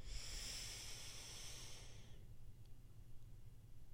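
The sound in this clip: A long, airy breath, drawn deeply as part of a breathing exercise, hisses steadily for about two seconds before fading into near-silence.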